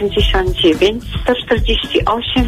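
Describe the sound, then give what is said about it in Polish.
A radio plays in the background of a caller's telephone line. Its continuous, muffled voices come through the narrow, thin phone sound at a steady, fairly loud level. “Halo? Ojej, proszę ściszyć radio.”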